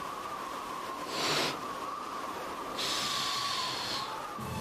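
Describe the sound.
People blowing air: two faint, breathy, hissing exhalations, the first short and the second longer, over a quiet steady tonal hum.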